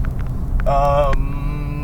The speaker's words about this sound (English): Sorry, it's really windy roads, and I'm reading. It's dangerous. I might kill somebody or myself. My crappy car's falling apart.